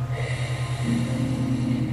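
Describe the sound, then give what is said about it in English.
One slow, deep breath drawn in through the nose, soft and airy, over a low, steady hum of gentle meditation music. “Deep breath in. And release. Deep breath in.”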